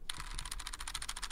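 Imitated computer keyboard typing like a movie hacking scene: a rapid, even run of many faint, crisp key clicks with no pauses.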